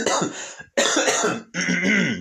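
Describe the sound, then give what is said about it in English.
Throat clearing by a speaker addressing an audience: three harsh, raspy bursts in quick succession, each close to a second long, loud and gravelly with brief gaps between them. “Let me get this out of my throat.”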